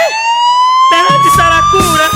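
Police siren sounding a sustained, piercing electronic tone. After about a second, rhythmic music with a beat comes in underneath while the siren keeps wailing over it.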